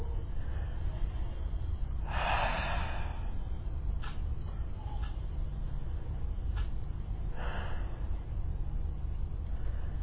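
Slow, deep breathing during a relaxation exercise, drawn all the way into the stomach: soft, airy breaths separated by long pauses, with a couple of fuller breaths standing out against a faint, quiet background.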